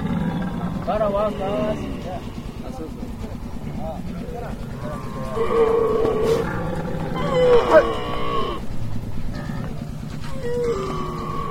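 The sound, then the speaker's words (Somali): Camels at a watering trough give deep, rumbling groans and roaring bellows that run almost continuously over a low drone, with a louder swell toward the end. “hadda waxaan soo gaarnay darkii geela biyuhu ka cabayay”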